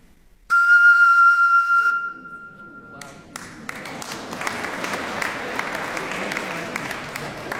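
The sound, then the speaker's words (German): A clear, steady whistle-like tone from blowing across the mouth of a water-filled bottle rings for about one and a half seconds. It stops abruptly and is followed by sustained audience applause. “Und wenn ich jetzt hinüberblase, gibt es 2 Möglichkeiten. Entweder ist die erste Reihe nass oder es kommt ein Ton.”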